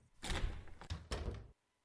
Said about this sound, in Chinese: 开门！